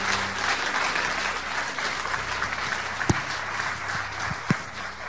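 Audience applause welcomes a guest pastor to the stage: dense, steady clapping that holds throughout at an even level, with a couple of sharper individual claps standing out near the end.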